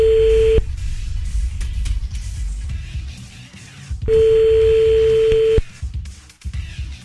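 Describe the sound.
Telephone ringing tone as a call goes out: a steady, fairly loud mid-pitched tone breaks off, then after a few seconds of low background noise a second long burst of the same tone sounds.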